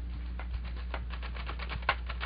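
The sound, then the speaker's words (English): Typewriter keys clack in irregular bursts as a war correspondent types during a lull in the fighting. The strikes are many and fairly quiet, with one sharper hit near the end, all over a steady low hum. “But when the shooting would die down, he'd unpack that typewriter of his and write away.”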